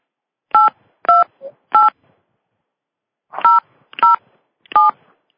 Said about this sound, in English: Please enter your subscriber PIN followed by the pound sign.